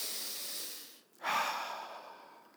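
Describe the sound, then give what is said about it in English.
A deep breath taken together by a group during a sermon: a long airy inhale, a brief pause, then a loud breathy exhale that slowly fades. “Let's just take a deep breath right now. Let's do it.”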